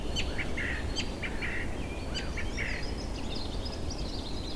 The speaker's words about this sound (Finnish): laulurastas katsoo asiakseen kuuluttaa ylimmän kuusen latvasta koko metsälle, kuka täällä määrää